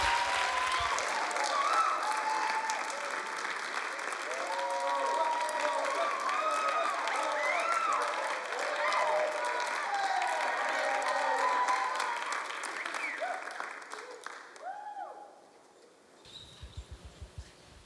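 Church audience standing and applauding to welcome a guest preacher: dense, sustained clapping from many hands holds steady for a long stretch, then thins out into a few scattered claps.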